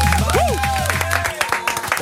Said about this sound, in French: Tony, ça s'applaudit, on l'accueille.